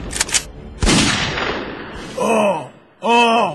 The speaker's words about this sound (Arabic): ديتك طلقة يا ابو جبريل